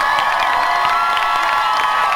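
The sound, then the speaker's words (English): An audience at a live show with dancers and a band applauds and cheers, a thick, constant wash of clapping mixed with high shouts and whoops at an even loudness. “please give a big round of applause to the dancers, the most bad ones, the band, the agent, and the production team that puts this together.”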